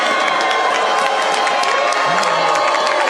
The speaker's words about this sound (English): Lindsey Graham getting a mixed audience, a lot of boos